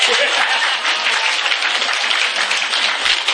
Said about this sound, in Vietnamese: Vỗ tay đi.